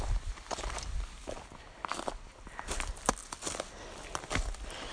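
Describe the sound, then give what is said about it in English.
Footsteps crunch through fallen leaves in an uneven walking rhythm, each step a dry crackling rustle, with heavy breathing faintly underneath. “I imagine you can guess where I am. From my laboured breath and from the crunching leaves underfoot.”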